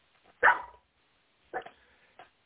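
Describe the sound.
A dog barks a few times, short faint yelps separated by stretches of quiet.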